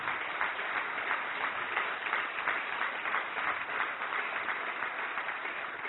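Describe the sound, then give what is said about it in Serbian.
Applause from the audience at an evening concert of Serbian traditional music, given for two guest colleagues. Even, dense clapping keeps a steady moderate level, sounding slightly muffled and lacking bright highs. “tako da i za njih dve jedan aplauz.”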